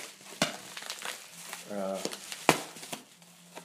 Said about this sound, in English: So let's get this box open here.